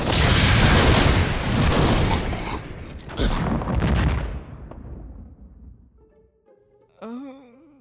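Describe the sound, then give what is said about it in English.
A loud, rumbling explosion effect for a magic missile spell, a broad booming blast that holds for about four seconds and then fades, followed by a short spoken voice near the end. “Magic missile!”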